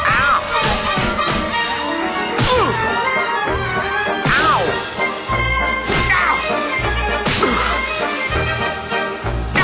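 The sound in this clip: Whacks and smashes ring out as a cartoon stunt bird hits something: a few loud, sharp crashing blows cut through dense, busy tonal sound that runs throughout.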